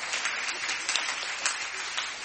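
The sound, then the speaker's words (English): A group of children clapping together, a dense, steady burst of applause that holds an even loudness throughout the brief moment. “we'll have a big clap when we get to the bottom”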